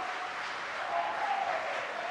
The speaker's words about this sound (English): You can hear the cheers behind us at SpaceX headquarters in Hawthorne, California.